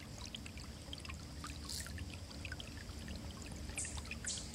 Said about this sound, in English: sense the water or hear the rushing sounds of the water.